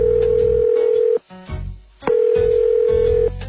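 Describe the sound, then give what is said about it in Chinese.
A telephone is dialed for a call home. A loud, steady dial tone drones, breaks off for a moment into a few brief clicks and tones, then resumes at the same pitch. “我给家里打一电话。”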